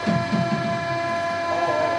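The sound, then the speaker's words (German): A Paris metro subway train gives off a steady droning hum with a thin tonal whine riding on top. The sound holds evenly throughout, with faint rattles beneath it. “So, schnell die Treppen runter, raus aus dem deutschen Haus, ab zur U-Bahn und zum Eiffelturm.”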